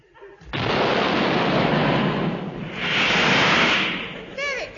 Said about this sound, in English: This is my rocket ship. See, I will demonstrate its power to you. I stand on the deck and light the rocket fuse so.